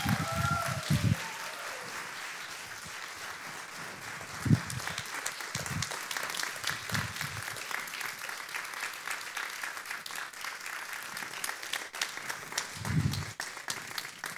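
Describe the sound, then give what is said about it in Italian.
Sustained audience applause as a standing crowd welcomes two guests onto a stage at a Sunday gathering. The dense, steady clapping fills the whole stretch at an even level and never breaks or fades. “con un grande applauso, per onorarli, accogliamo il pastore Pinuccio e Sofia”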